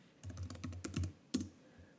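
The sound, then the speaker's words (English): Faint computer-keyboard typing: a quick run of soft keystrokes, then a pause and one sharper, louder tap before it goes quiet. “I need to look up if this is the word that I'm trying to think of. Dystopian. I'm going to like literally type it up right now.”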